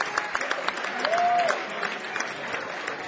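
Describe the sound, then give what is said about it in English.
Concert audience applauds a band from Dallas, Texas, at a musician's 70th birthday show. Steady, moderately loud clapping carries throughout, with one drawn-out whistle from the crowd near the middle. “Make a noise for it, folks. Give it up. Come on.”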